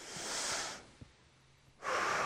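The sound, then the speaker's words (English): A deep breath drawn in, shown during a talk on audienceal singing: a long, loud, airy rush lasting most of a second, a quiet pause, then another breath sound starting near the end. “So y'all just take a deep breath with me.”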